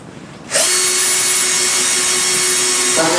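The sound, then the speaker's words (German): A cordless screwdriver drives a large screw into wood to fasten a lid onto side panels, starting abruptly into an even, high-pitched motor whine that holds for about two and a half seconds before cutting off. “Das stecken wir jetzt mal da rein, dann wird er die Schraube reindrehen, okay? Große Akkuschraube. Achtung, es geht los.”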